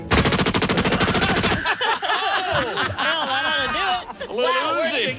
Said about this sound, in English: Did you just shoot her and get it over with?